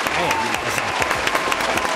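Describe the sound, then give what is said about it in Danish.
Applause from a dense crowd, played as a sound effect during a mock awards segment on a Danish talk show. The clapping is loud and steady for about two seconds, with voices talking over it. “Kan du ikke lige smide sådan en klapsalve på? Jo, det kan jeg let. Kan jeg vi ikke lige finde rigtigt klap?”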